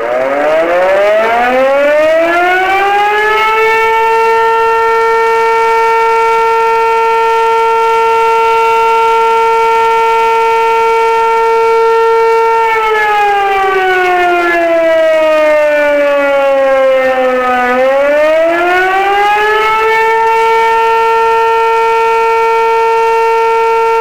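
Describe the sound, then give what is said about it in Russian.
A civil defense warning siren sounds during a test of a town's emergency alert system. It winds up to a loud steady wail, holds, dips lower, then winds back up and holds again. “В проверке также принимают участие со звуковыми сигналами автомобили пожарной части, отдела полиции и поисково-спасательного подразделения.”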